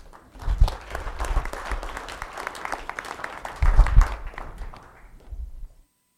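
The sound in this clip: Audience applause welcoming a speaker to the stage at a talk: steady clapping from many hands that swells briefly near the end, then tapers off into silence.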